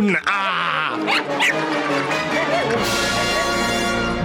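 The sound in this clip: A human voice imitates a dachshund growling and biting, producing harsh, guttural growls and strained vocal cries with sweeping pitch, loud and continuous, ending in a rougher, noisier snarl.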